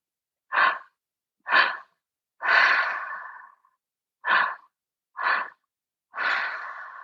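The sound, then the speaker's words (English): Six open-mouthed breaths in two groups of three, each group two short puffs followed by a longer, sigh-like exhale that trails off, each breath separated by silence. “This open mouth breath invites in more oxygen and helps us move through some of that stuckness.”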